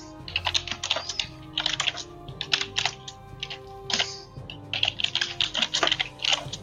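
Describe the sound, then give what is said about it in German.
Quick clusters of keystrokes from typing on a computer keyboard, faint crisp clicks arriving in irregular bursts with short pauses between them, with no talking. “Wer, wer, wer tippt da?”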